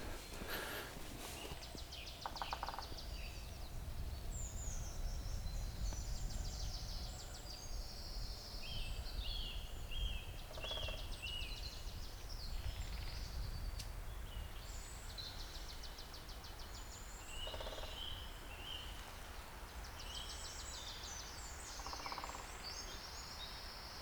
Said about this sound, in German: Das sind ja mindestens 3 Spechte. Einer da ganz hinten, jetzt einer hier direkt vor mir